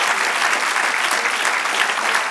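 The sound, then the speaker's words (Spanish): An audience applauds during a religious service with loud, dense, continuous clapping at a steady level throughout. “Eso sí merece un aplauso. Ahí no hay que meditar sino celebrar.”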